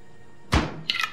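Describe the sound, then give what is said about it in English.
A refrigerator door swings shut with a single dull low thud. A brief, higher clatter follows about a third of a second later. “She closes the fridge”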